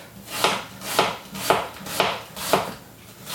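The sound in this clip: A knife chops onions in five evenly spaced, crisp strokes about half a second apart, fairly quiet, with no talking.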